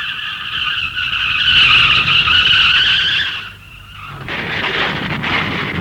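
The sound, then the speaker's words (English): A car pulling onto a driveway with a loud, sustained tyre squeal that eases off briefly, then a rougher engine-and-tyre noise resumes. “Hang on a minute. I think I can hear the wife pulling on the drive.”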